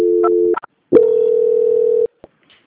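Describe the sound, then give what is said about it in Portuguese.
Telephone tones play as a call is transferred to a bank's quality control line. A steady beep is followed by a short gap, then a longer, slightly higher steady tone and a few faint clicks. “Banco Santander, eu peço por favor que a senhora aguarde e vou transferir para o controle de qualidade que vai dar continuidade à sua contratação.”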